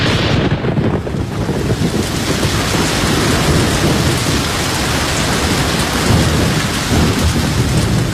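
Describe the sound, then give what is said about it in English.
A loud thunderstorm with heavy rain on a moor: a dense, unbroken roar of rainfall with a deep rumble of thunder throughout. “Lord, what a gully washer.”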